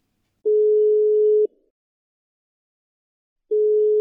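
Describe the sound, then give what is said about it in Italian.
Telephone ringing tone on an outgoing call: a steady, single-pitched electronic tone sounds for about a second, falls silent for roughly two seconds, then starts again. “Chiamiamo Giulio.”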